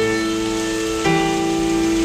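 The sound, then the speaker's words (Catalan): Sustained piano notes ring over a steady, rain-like hiss. A new set of notes enters about halfway through, and the hiss continues evenly underneath. “Estem sentint el so de la pluja al piano.”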